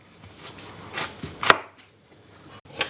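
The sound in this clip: A kitchen knife cuts food in half while home cooking. One crisp, sharp chop stands out above faint handling noise, followed by a smaller tap near the end.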